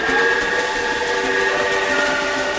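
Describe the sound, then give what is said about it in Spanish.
A train arrives at a station platform, a loud, continuous rumble overlaid with a sustained high, whistling tone that holds steady throughout. “Al fin llegó el tren que esperaba la señora.”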